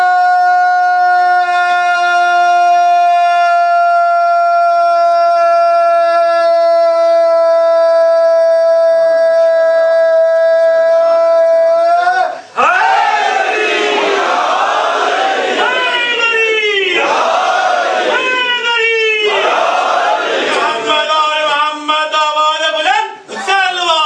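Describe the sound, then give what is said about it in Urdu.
A crowd at a religious gathering chants a slogan. A single sustained, strongly tonal voice holds a long note at first, then the crowd answers with a series of loud, rhythmic collective shouts. “نئے عہد کے ساتھ دونوں ہاتھوں کو بلند کیے ہوئے ایسا نعرہ لگائیں کہ پتہ چل جائے کہ موالیان حیدر کرار ابھی ذکر محمد و آل محمد کو سننے میں سیر نہیں ہوئے.”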